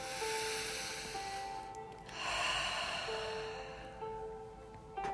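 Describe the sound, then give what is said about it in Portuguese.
A slow, deep breath during a guided relaxation exercise: a soft, breathy inhale and exhale that swells and fades, heard faintly over quiet sustained tones. “Respira fundo. Respira fundo para poder oxigenar o cérebro três vezes.”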